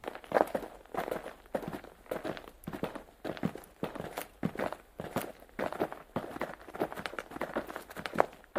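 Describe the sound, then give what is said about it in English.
Footsteps of two people walking in, a steady run of many soft, evenly spaced footfalls that stay faint throughout, with no voices. “The conservator and the gardener now walk in.”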